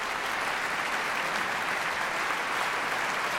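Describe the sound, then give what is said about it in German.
Applause continues after a concert in the largest auditorium of a philharmonic hall. Dense, even clapping from a large audience runs steadily throughout at a moderate, unchanging level, with no talk over it. “Ein Applaus geht weiter.”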